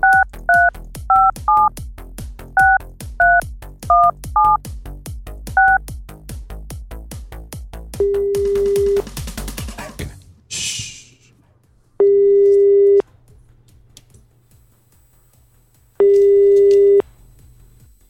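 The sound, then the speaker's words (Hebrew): Telephone keypad dialing to reach the prime minister's office: a quick run of many short two-note beeps, then a single steady tone, a brief noise burst, and two long, evenly spaced busy-signal tones over a low hum. “אז אנחנו מחייגים, מקווים שגם אנחנו נצליח, לתפוס את ראש הממשלה, אמר בנימין נתניהו”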